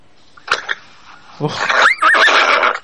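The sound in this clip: A horse neighs in a loud, high wavering whinny whose pitch rises and falls in quick loops, preceded by a few short sharp bursts of sound.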